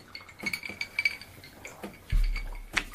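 Glasses clink together in a toast with a scatter of light, bright taps and chinks, then a duller knock and one more ringing clink near the end.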